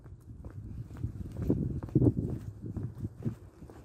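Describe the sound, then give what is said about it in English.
Footsteps of people power walking at a brisk pace outdoors on an overcast, breezy heath: a steady run of many low, soft thuds and scuffs without a clear beat, fairly quiet throughout. “this power walking is quite a pace”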